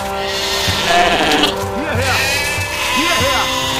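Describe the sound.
Lambs bleat a few times in a flooded sheep stall, short wavering cries rising and falling over a steady, dense background noise.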